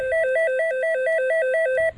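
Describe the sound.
A telephone rings on a call to the French directory-enquiries number 12. It is an electronic warble that flips quickly and evenly between two tones, steady and fairly loud, then stops just before the end.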